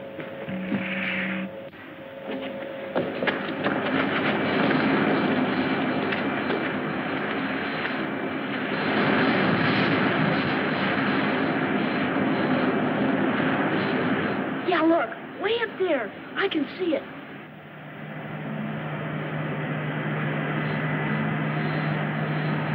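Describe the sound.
A spaceship landing roars as a continuous, loud engine rumble and hum that swells and eases. Voices break in briefly partway through before the drone resumes steadily.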